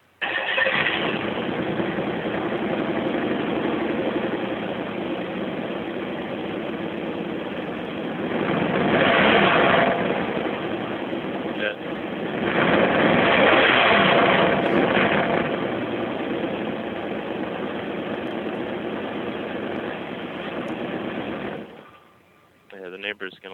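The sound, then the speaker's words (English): A car engine idling and then revving, captured on a phone held close to the exhaust: a steady, gritty rumble that swells twice into louder revs, then cuts off near the end, with voices talking over it. “I think the phone's too close to the exhaust. I don't know. From this end, it sounded pretty badass to me. Yeah, it sounded like it had some nuts to it. All right, let me rev it up then.”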